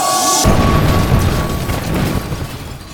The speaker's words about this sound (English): Good gracious, it's going to explode! Hit the deck!